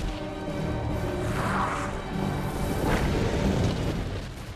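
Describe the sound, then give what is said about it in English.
Rumbling, crashing sound effect of a ship's hull breaking apart in a science-fiction TV show; heavy low booms and debris crashes roll on loudly throughout, swelling around the middle and again near the end, with no voices. “That is actually quite a nice effect. Lots of detail. The hull breaks up.”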